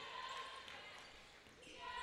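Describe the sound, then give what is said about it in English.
Basketball dribbled on a gym court during a women's college basketball game against Central Georgia Tech, with a few faint, soft bounces set against quiet background noise. “Now Central Georgia Tech dribbling.”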